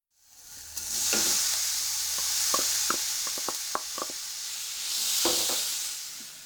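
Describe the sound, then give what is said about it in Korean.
Minced meat with chopped ginger stir-frying in a pan while a wooden spatula stirs it, giving a steady sizzle broken by a few light scraping knocks. “알갱이가 작은 소보로를 만들기 위해 나무 주걱으로 잘 저어가면서 볶습니다.”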